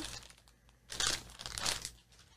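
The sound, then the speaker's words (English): A small pouch packed inside a box is opened with faint crinkling and rustling of thin material, swelling into two louder bursts of crumpling before fading. “So this has a little card in it. Yes. Opening a little pouch. There's a pouch inside of a box.”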